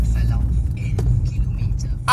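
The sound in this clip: Steady low engine and road rumble from a car being driven through open countryside, a continuous droning hum that holds at an even level throughout.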